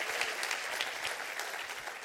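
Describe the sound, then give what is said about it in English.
Audience applause in a church during a sermon: dense, steady clapping from many hands that holds at an even level throughout. “Would you clap for the word today?”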